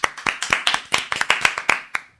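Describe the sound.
Applause heard as distinct, sharp hand claps, more than a dozen in an uneven quick rhythm, fairly loud and alone, stopping after about two seconds with a short fading tail.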